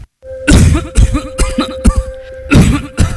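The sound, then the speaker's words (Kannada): A man's deep, persistent cough: a rapid run of heavy, chesty coughs in repeated loud bursts, heard alone over a faint steady hum. “ಏನೀ ಆಳದ ಕೆಮ್ಮು ನಿಲ್ತಾನೆ ಇಲ್ವಲ್ಲಪ್ಪ?”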